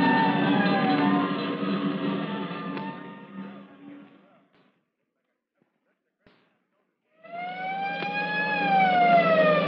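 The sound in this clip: A fire engine siren wails on its way to a fire. Its loud, harmonic tone slowly fades away into near silence, then surges back and climbs steadily in pitch and loudness.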